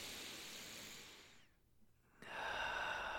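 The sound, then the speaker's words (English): A deep breath drawn in, heard as a loud, airy rush of breathing, then a short near-silent pause, then another loud, breathy stretch that runs to the end, with no talk. “Anyway, I'm in a good mood. I might even take a deep breath in.”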